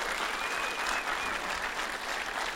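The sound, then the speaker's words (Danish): Audience applause fills the whole stretch, a dense and steady wash of many hands clapping at an even, fairly loud level, with no voices standing out. “Mine damer og herrer, giv en kæmpe stor hånd til en fuld kunde.”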